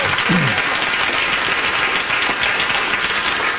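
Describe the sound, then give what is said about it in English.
A crowd responds with loud, steady applause that stays dense and sustained from start to finish. “See, the crowd cheered for that.”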